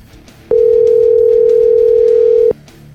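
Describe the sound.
Telephone dial tone while a call is being placed: a single loud, steady tone that starts and stops abruptly and lasts about two seconds, with faint background hiss before and after.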